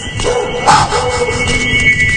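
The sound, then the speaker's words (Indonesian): A dog at the end of a bridge barking loudly: a few sharp, yelping barks, one louder burst early on, alone without voices. “Melolong menggonggong sangat keras ke arahku. Seakan menatapku terus menggonggong dan melolong.”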